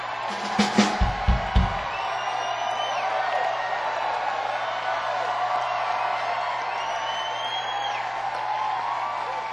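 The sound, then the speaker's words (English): A loud audience cheering at a live show, a sustained roar of crowd noise with scattered whoops rising above it and a few sharp claps or thumps near the start. “remember we did that show in Atlanta where the audience was so fucking loud. I think tonight is louder than that.”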